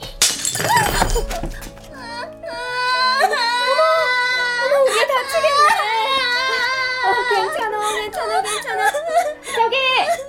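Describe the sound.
A young child cries loudly in a hair salon after a sudden crash of something breaking, the wailing rising and wavering in long sobbing bursts while an adult voice speaks softly over it.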